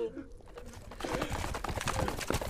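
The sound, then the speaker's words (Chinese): Horses' hooves clip-clop as four or five riders approach at the end of a street. A busy, rapid stream of hoofbeats grows louder and denser after the first second. “四五个人骑着马出现在街道尽头”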